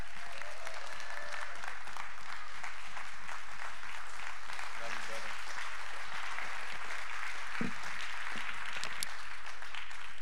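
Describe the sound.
An audience applauds to welcome a guest speaker, with dense, sustained clapping throughout and a few voices mixed in.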